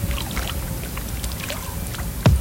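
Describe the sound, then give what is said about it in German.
Fish jump and splash in the water around a boat on a lake, faint scattered splashes over a steady watery background, then one louder, fuller splash near the end. “Wir sitzen im Boot und um uns drumherum, habe ich so auch noch nicht erlebt, springen die Fische wie bekloppt.”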